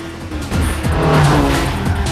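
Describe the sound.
Car engine roaring with tire squeal and skidding during a film chase scene, loud and continuous, with whining squeals cutting through in the second half.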